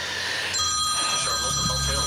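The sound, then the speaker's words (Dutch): A telephone ringing, its bright electronic tones starting after about half a second and continuing steadily to the end over a soft background. “Oh, er gaat even een telefoon af, maar die wordt even nu op stil gezet.”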